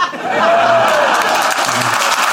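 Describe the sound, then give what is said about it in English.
Studio audience applause during a live radio music night, a broad, steady wash of clapping that swells in quickly and stays level for a couple of seconds. “That's a pity applause. They're clapping for you. They just waited politely till I'd finished.”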